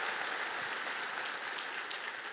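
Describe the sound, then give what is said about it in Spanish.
An audience claps during a church sermon, producing a continuous, even wash of applause at moderate loudness without clear breaks or distinct voices. “Y vamos a dar un aplauso.”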